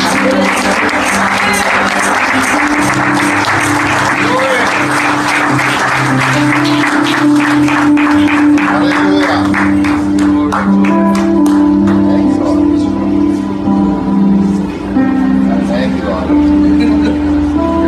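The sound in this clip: A church audience at Holy Hill of Zion in Waianae, Hawaii, applauds to welcome a guest: sustained, dense clapping over steady musical tones, with voices mixed into the loud wash of sound.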